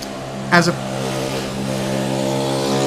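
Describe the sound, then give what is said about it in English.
A car driving by outside, heard as a brief surge of engine noise near the start that settles back into a steady low hum. “let's let that cool guy drive by.”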